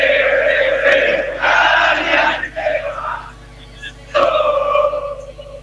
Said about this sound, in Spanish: Me estoy acercando donde está la hinchada, el corazón de la tribuna, el corazón de la barra brava acá de Argentina. A ver si se escucha ahí.